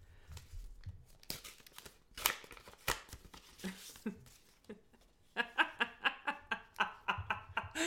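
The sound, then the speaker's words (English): A taped greeting card envelope being ripped open: irregular paper tears and crinkling rustles, then a quick, regular run of crisp tearing bursts near the end, all fairly quiet. “Okay, I'm opening the card first. Oh, well, I already ripped it.”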